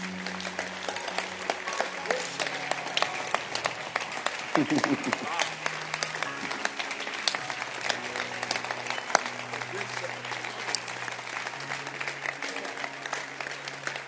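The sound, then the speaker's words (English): An audience claps their hands during a church service. Many quick claps run throughout over sustained music, and a voice is heard briefly partway through. “Yes, the Great Shepherd. Clap your hands.”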